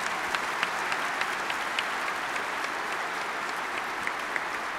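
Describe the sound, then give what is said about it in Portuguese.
An audience at Mass at the Aparecida shrine in Brazil applauds the country's patron saint. The clapping is dense and loud, holding steady for about five seconds with crisp individual claps standing out. “Vamos saudar o padroeiro do Brasil com uma salva de palmas, bem forte. Mais forte aí.”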